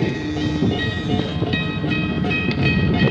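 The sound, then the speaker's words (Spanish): A passing train makes a loud, steady rumble of rail cars with sustained high whining tones running through it, continuous for the whole stretch. “Es el tren”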